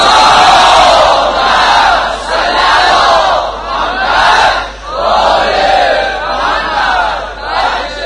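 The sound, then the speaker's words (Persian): Crowd at a religious gathering loudly reciting salawat in unison, a massed chorus of voices rising and falling in several long, swelling phrases. “هر کی آرزو داره صلوات بعد رو بلندتر خواند.”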